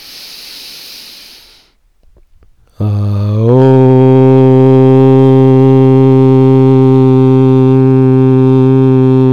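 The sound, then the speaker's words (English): Group chanting of Om during a guided meditation, preceded by a deep breath in: soft airy breathing fades out, then a steady, loud, low droning vowel swells in after about three seconds and holds evenly to the end. “let's chant Om together”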